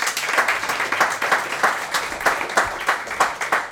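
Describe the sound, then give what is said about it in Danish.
Audience applause in Dansk Sprognævn's headquarters in Bogense: fairly faint, rhythmic clapping that settles into an even, steady beat of many claps, roughly three per second, sustained throughout. “Må jeg høre en applaus fra jer?”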